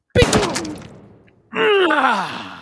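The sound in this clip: Loud gunshot blast in a video game with a sharp attack and a decaying tail, followed after a short pause by a groaning voice-like sound whose pitch falls.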